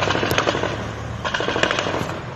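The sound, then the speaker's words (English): Gunfire during a jihadist attack on a military police training camp near the airport in Bamako, Mali. Dense, rapid cracks and bursts rattle over a continuous rough rumble, loud from start to finish. “Gunfire erupted near the airport as jihadis attacked a military police training camp.”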